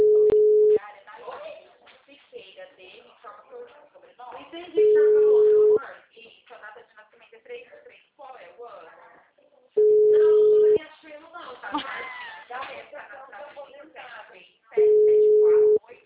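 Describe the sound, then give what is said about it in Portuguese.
Ringback tone of an unanswered phone call: four steady, one-second beeps spaced about five seconds apart, with people talking between the tones. “Eu acho que ele não quer atender mesmo, que ele não tá atendendo mais.”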